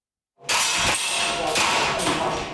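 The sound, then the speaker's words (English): A dozen civilians fire air guns at targets in a Taipei basement range: a few sharp pops cut through a continuous loud, noisy background. “In the Taipei basement, a dozen civilians fire air guns at targets.”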